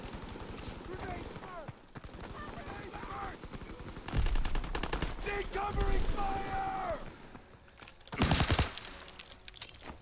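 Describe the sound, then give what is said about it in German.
Loud bursts of unsuppressed automatic gunfire from a video game weapon, three dense volleys standing out over a steady bed of game noise, with faint voices underneath. “Die Waffe hört sich an ohne Schalldämpfer wie mit Schalldämpfer. Kann das sein?”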